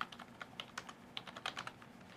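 Quiet typing on a computer keyboard while writing asynchronous web code, many light, quick keystrokes in an uneven rhythm with short pauses between bursts.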